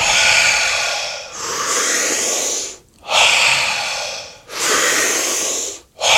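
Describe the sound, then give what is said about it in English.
Long, deep breaths through the mouth during a guided relaxation, each airy rush lasting over a second and separated by brief silent pauses in a steady rhythm. “take a big, deep breath in through your mouth. Letting go.”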